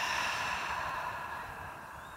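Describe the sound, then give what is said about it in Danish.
Slow, deliberate breathing during a guided relaxation exercise, in through the nose and out through the mouth, heard as one long, soft, airy breath that gradually fades, with no talking. “tag en indånding gennem næsen. En udånding gennem munden.”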